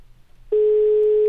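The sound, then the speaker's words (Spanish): A ringing tone sounds on an outgoing telephone call. It is a single steady, mid-pitched tone that starts loud after a brief quiet moment and holds unchanged to the end. “Vamos a marcarle. Venga. Ahí está la llamada.”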